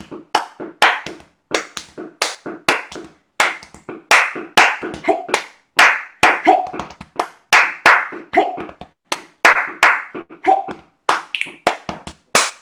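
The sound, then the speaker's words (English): Body percussion from a group clapping hands and tapping on their bodies: many sharp, crisp hits in a steady, driving rhythm with short pauses between phrases, loud and without talk. “And then we got them doing the body percussion as well. And the body percussion is literally just, you know, using your body to make sound.”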